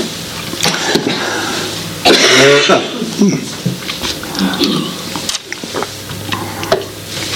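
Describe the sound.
A person clears their throat to ease a tickle, giving one harsh, rasping burst near the middle, with softer scattered noises before and after.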